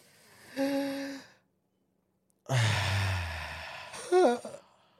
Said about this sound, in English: I think it's all about just gotta breathe, man. Everyone together. Everyone together. Ready? We're going to go in.